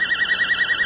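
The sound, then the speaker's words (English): A voltage-controlled oscillator modulated by an exact 10 hertz signal: a steady, high, pure electronic tone that warbles rapidly in a fast, even vibrato, about ten wobbles per second, alone and unbroken. “And what we've done is modulated a voltage-controlled oscillator with an exactly 10 hertz signal”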